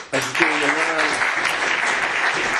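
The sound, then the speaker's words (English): An audience claps at a community gathering, the clapping swelling quickly into a dense, steady roar, with a voice briefly audible near the start. “And save a little bit more of the clapping for later.”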